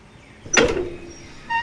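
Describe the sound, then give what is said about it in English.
A coffin lid is opened with one short sliding, scraping sweep that trails off into a quiet hum, followed by a brief faint knock. “Tape me to the lid of the inside of the coffin. Oh, perfect. Time to open my coffin.”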